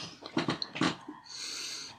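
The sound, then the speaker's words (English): A person sniffing at someone's breath, with a few quick, sharp nasal inhalations in a row, followed by a steady, soft breathy hiss. “I'm ready to sniff. Very excited for the sniffing of the breath.”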